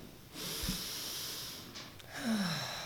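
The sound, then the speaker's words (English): A church audience takes a deep breath together. A soft, airy rush of many breaths swells in and keeps going for a couple of seconds. It stays quiet throughout. “Be here in this moment and breathe. Let's take a deep breath together.”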